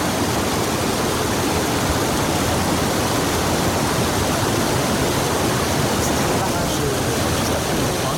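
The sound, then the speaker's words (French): Water rushes over a water-intake weir beside a fish ladder that feeds a canal. The roar is loud, steady and continuous throughout, with no break. “Voilà, c'est le barrage de prise d'eau, si tu veux, le canal par là-bas. Tu vois, ça retient l'eau pour remplir le canal.”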